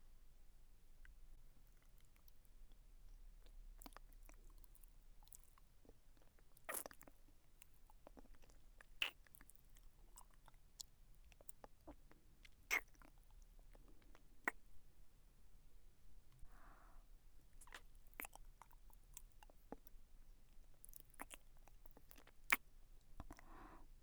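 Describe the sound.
Soft ASMR mouth sounds of someone chewing and nibbling on an ear: many faint, wet clicks and smacks scattered irregularly over a quiet, low background hush.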